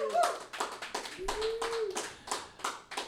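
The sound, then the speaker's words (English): Rhythmic hand clapping from a church audience greeting its online viewers, many even beats at a quick steady pace, moderately quiet, with a faint sustained tone early on. “Let's greet our streamers in Jesus' name. Put your hands together.”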